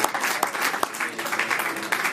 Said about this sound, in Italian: ci farei anche un applauso, se me lo permettete